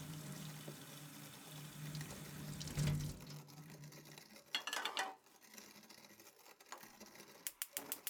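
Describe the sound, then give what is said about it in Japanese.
Water runs from a tap into a kettle, a steady rushing stream that cuts off, followed by a few light clinks and knocks of metal kitchenware. “ああ先輩、お湯沸かしてもらっていいですか？”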